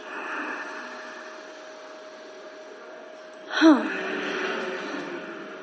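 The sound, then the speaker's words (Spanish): A person breathing in, then exhaling while making a hum: soft, airy breath noise at first, followed by a sharper breath and a longer voiced exhale with a low hummed tone. “Entonces van a tomar aire y van a exhalar haciendo como un hum. Vamos a hacerlo otra vez.”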